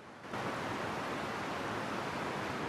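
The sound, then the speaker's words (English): Flowing river water at a watering hole, heard as a steady, even rushing hiss that swells up just after the start and then holds constant, with no voices. “The flowing river.”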